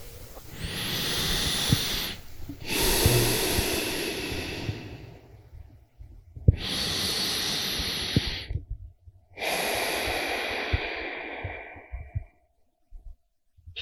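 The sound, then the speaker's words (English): Slow, deep breaths during a guided meditation session: four long, airy breaths, drawn in and let out alone, each swelling and fading with short pauses between them and no talk. “start by maybe just taking a deep breath or two.”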